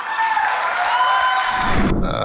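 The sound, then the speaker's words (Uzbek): Applause from the audience at a stand-up comedy performance, a sustained dense clapping with voices or laughter mixed in, ending abruptly near the close. “Bemalol qarsak chalib o'tirishinglar mumkin, chunki davlat tomonidan aytilgan gaplarga doim qarsak chalingan.”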